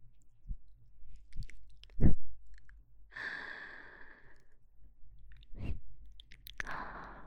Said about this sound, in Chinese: 只吃了一边的，另外的耳朵还没吃到呢，你侧点身子，把另外一边的耳朵对着我。